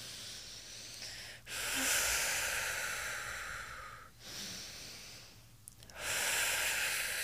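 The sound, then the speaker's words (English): Deep rhythmic breathing for a breathing exercise, with deep inhales through the nose and big exhales out of the mouth in one continuous cycle. A few long, airy, hissing breaths follow one another with only brief dips between them, and no talking. “So it's just a deep inhale through the nose, a big exhale out the mouth in a circular motion without a start or stop. So it sounds like this.”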